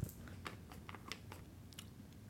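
Someone chewing olives: faint, irregular crunchy clicks and wet mouth sounds over a quiet background.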